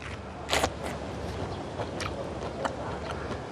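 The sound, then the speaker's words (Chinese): Someone bites into a ripe, crisp, juicy peach with dark red skin: one sharp, wet crunch, then a few fainter chewing crunches, quiet overall. “嗯，好吃哎。嗯，它桃子的味儿特别浓”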